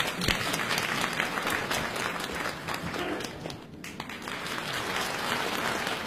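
A crowd applauds to welcome contestant number three to an improvised crosstalk comedy act at a Beijing variety show, the dense, continuous clapping staying steady for several seconds and thinning briefly around the midpoint.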